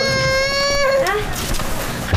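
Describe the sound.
A child cries in a sustained, high, wavering wail that breaks off after about a second. Quieter, ragged sobbing noise follows.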